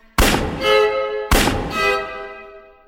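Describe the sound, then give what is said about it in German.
Pistol gunshots in a radio drama: two sharp, loud bangs about a second apart, each followed by a long ringing decay that slowly fades. “Ah, oh, zum Glück, ich habe nicht daneben geschossen.”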